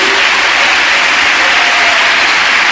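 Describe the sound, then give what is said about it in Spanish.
Church audience applauding during a sermon, a loud, unbroken roar of many hands clapping at once, steady and dense from start to finish. “Le damos un aplauso”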